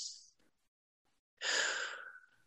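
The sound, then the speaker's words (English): A deep breath let out as one long, soft, airy exhale that starts full and fades gradually. A brief faint breathy sound and near silence come before it. “I'm going to take a deep breath because that's what I like to do when I share my gratitude.”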